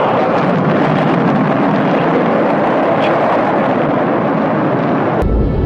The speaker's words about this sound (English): T-minus 15 seconds. Guidance is internal. 12, 11, 10, 9. Ignition sequence start. 6.